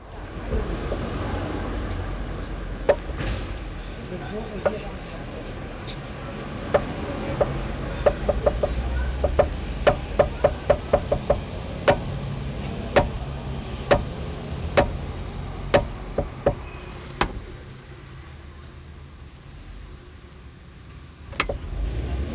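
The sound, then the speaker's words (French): A car door is opened and shut over and over, making many sharp clicks and knocks in an irregular rhythm over a steady low rumble, with no voices. “Je joue avec la porte de la voiture.”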